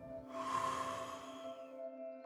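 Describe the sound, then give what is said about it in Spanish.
A slow breath during a guided breathing exercise: a soft, airy rush swells and fades over about two seconds beneath steady, sustained tones. “Una vez más, inhala y exhala.”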